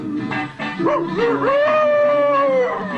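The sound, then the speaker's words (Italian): A man's voice imitates a wolf, howling hungrily in a film scene. Short yelping cries lead into one long, sustained, wavering howl that slowly sinks in pitch. “Il famelico ululato di Mastroianni di fronte a Sofia, che si spoglia per lui nella famosa scena di Ieri, Oggi e Domani”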